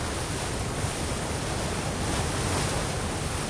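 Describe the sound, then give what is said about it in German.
Waves and sea spray heard on the deck of a sailing boat on a trip from Tenerife toward Lisbon, forming a constant loud roar of rushing water and wind that never lets up. “Oben auf Deck können wir eigentlich gar nichts machen. Es gischtet und es ist feucht.”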